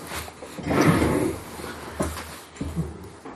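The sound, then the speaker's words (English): A kitchen window being shut: a scraping slide followed by a couple of dull knocks as it closes, fairly soft and with no talking over it. “I think there's a window open in the kitchen. Yes. Will you shut it? Yes. Thanks, honey.”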